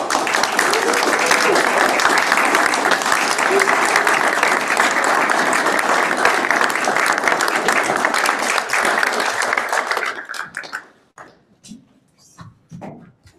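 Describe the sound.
Applause at a public utility district commissioners' meeting for the December Employee of the Month: dense, steady clapping from a crowd for about ten seconds, then dying away into scattered claps and a few faint voices.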